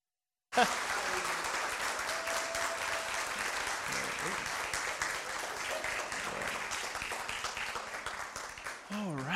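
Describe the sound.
An audience applauds to welcome a preacher, steady dense clapping that holds for about nine seconds after a brief silence, with a voice starting at the very end.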